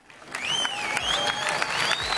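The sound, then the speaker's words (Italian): Audience applause fills the Arena Santa Giuliana in Perugia, a dense, steady wash of clapping with several high, sliding whistles rising and falling over it. “E solitamente l'Arena risponde con un applauso che condividiamo con voi, pubblico di Radio Monte Carlo.”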